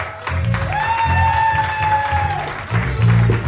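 An audience at a comedy show applauds and cheers to welcome a comedian, with loud, steady clapping and crowd noise throughout and a long whooping cheer rising above the applause.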